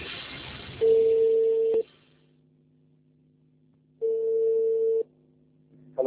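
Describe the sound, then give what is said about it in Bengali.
A phone line rings back as a telephone call connects: two long steady mid-pitched ring tones of about a second each, separated by quiet gaps over a low hum, with a third tone just starting at the end. “ওকে, ফোনে connect হয়ে গিয়েছে, আমরা যাচ্ছি ফোনে।”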